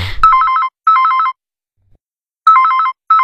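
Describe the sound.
An electronic telephone ringtone sounds loudly in four warbling trill bursts, grouped in two pairs with a longer silent gap between the pairs.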